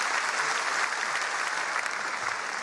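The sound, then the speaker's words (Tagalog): Applause from a seated audience at a Sunday church faith talk, a thick, continuous patter of many hands clapping at a constant level, with no voice over it. “Palakpakan nga natin ang bawat isa sa inyo.”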